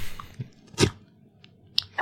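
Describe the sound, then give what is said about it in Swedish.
Chewing and crunching of a carrot up close: a few crisp, separate crunches, one louder and fuller than the rest, with quiet moist gaps between bites. “Jag äter en morot.”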